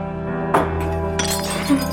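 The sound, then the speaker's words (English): A water glass is set down and breaks: a sharp glassy clink, then a brief crackling break a moment later, over a steady low hum. “Distracted, she sets down a water glass.”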